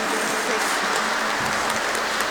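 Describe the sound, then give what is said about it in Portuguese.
Gentle applause at a baptism, kept soft for a sleeping baby: a continuous, even patter of many hands, resembling light rain, with no strong individual claps. “E nós vamos dar uma salva de palmas, não muito forte porque ela está dormindo, né?”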